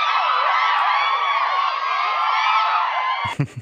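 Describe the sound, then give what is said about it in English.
A canned crowd cheering and whooping sound effect, played for a mock studio audience, holds at a steady level for about three seconds, then cuts off abruptly as a voice begins speaking. “Oh, there we go. The audience wasn't plugged in.”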